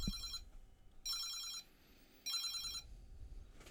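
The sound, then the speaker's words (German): A telephone rings in three short bursts of a bright, high-pitched electronic trill separated by brief gaps, over a faint low rumble. “Boah, Telefon. Ich muss mal kurz rangehen.”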